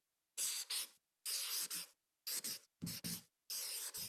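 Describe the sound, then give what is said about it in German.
Pen or marker strokes as a name is written, heard as brisk, scratchy, hissing strokes in several short bursts separated by brief pauses, with no talking. “Ich schreibe hier mal die Laura hin.”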